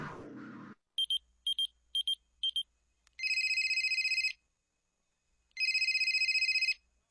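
A telephone rings with an incoming call: a short series of electronic beeps, then two long warbling rings separated by a pause of silence.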